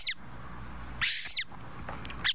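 Calls of a Montagu's harrier, a rare UK raptor: a few high, shrill, chattering bird calls, with one longer and louder burst in the middle and shorter, fainter ones around it.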